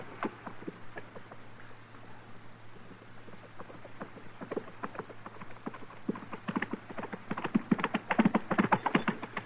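Hoofbeats of a horse galloping in a hurry along a dusty trail, many quick irregular thuds that grow louder and denser toward the end.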